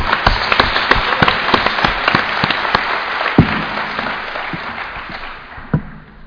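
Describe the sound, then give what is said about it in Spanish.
An audience applauds itself at a gathering. Crisp, distinct claps ring out within dense applause, which then thins and fades toward the end, leaving a few scattered final claps. “let's all give ourselves a hand for being here today.”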